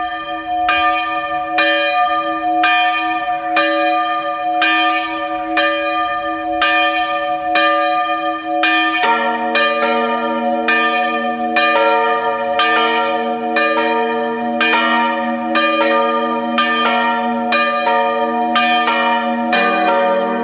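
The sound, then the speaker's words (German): Parish church bells ring at noon in Mühlbach am Hochkönig, Salzburg, with many strikes in a steady, overlapping rhythm. A lower-pitched bell joins partway through, and the ringing stays loud and continuous throughout. “Es ist 12 Uhr, es läuten die Glocken der Pfarrkirche Mühlbach am Hochkönig, Land Salzburg.”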